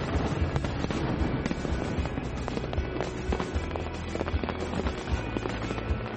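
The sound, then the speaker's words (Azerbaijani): Fireworks bursting over Niagara Falls on a weekend night: many sharp cracks and pops break out over a constant, loud roar of rushing water. “Həftənin cümə və bazar günləri isə şəlalənin üzərində atəşfəşanlıq olur.”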